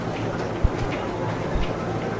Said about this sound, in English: This is a station where you have competing announcements, announcements on top of announcements. It's utter mayhem.